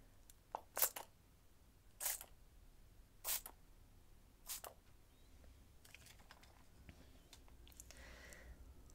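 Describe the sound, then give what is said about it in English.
Four short, crisp spritzes of makeup setting spray are misted across a face during a Valentine's make-up session, each burst soft and evenly spaced, followed by faint rustling. “this is going to ensure that your makeup stays on for longer. Okay, so just close your eyes for me, and I will very delicately spray this across your face.”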